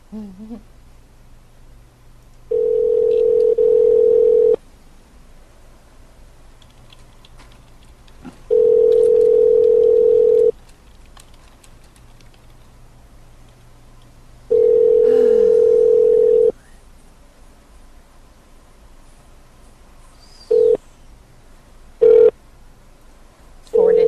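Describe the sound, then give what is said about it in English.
Telephone tones while placing a call back: a steady low tone sounds alone in three long bursts of about two seconds each, separated by quiet gaps, then a few short beeps near the end. “I want to call them back, though.”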